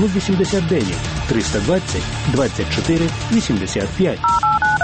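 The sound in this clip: Telephone keypad tones dialing a phone number: a quick run of crisp, evenly spaced beeps at the end, following a voice talking.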